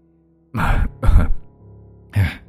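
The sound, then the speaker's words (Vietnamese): An old man coughs several times: three harsh, throaty bursts, the first two close together and the last after a short pause, with a rough, low grumble between them, fairly loud and with no talk. “Ông hai ho lên mấy tiếng rồi nhăn mặt nói”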